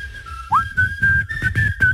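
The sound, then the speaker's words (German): A person whistles a short bright tune, a sliding upward note followed by a run of short repeated high notes in an uneven rhythm, moderately loud and alone. “Achtung, zu Ende pfeifen.”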